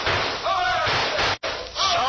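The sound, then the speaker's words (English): A sledgehammer smashing in a door: a few loud, heavy thuds and crashing blows, with voices heard between the impacts. “Bring up that sled, boy. Smash in that door.”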